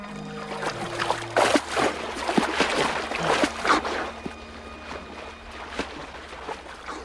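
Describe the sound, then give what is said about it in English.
Water splashes and trickles as a person swims across a river to the opposite bank: irregular stroke splashes, louder in the first half and softer toward the end, over a low steady hum. “The boat disappears from view round a bend in the river. Tom swims to the opposite bank.”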